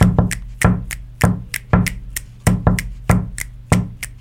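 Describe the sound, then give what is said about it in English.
Finger snaps mark the quarter notes over a kick drum in a pop beat being built up. Crisp, evenly spaced snaps repeat in a tight loop, each paired with a low thump. “Let's add in the something to play the role of those claps on the quarter notes. In this case, it's a little bit smaller. Let's just use snaps.”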